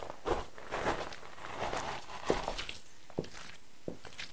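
Footsteps walk down over stone paving toward the ruins of a Roman temple, a fairly faint series of uneven treads with soft scuffs between them.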